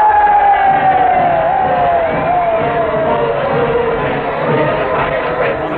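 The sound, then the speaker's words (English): Crowd cheering and shouting at a Democratic presidential nominating convention, a dense, steady roar of many voices with whoops and yells that stays loud and unbroken throughout. “Weeks of campaigning while the cheers and shouting reached their frenzied peak.”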